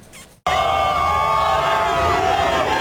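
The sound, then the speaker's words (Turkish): Crowd cheering as football fans greet the Turkish national team at its hotel before its first World Cup match, with flares lit and flags waved; a dense roar of shouting voices bursts in after a brief quieter moment and holds loud throughout. “Tezahüratlar yapıldı, meşaleler yakıldı.”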